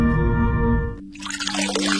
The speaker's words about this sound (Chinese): 你知道，随时关紧水龙头可以节省很多水。